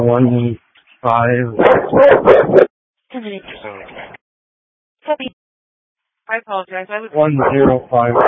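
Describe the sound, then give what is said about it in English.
Dog barking and yipping over a police dispatch radio channel, several loud, tinny bursts separated by short silences. “No, unfortunately, due to the dog barking, I wasn't able to copy all of that.”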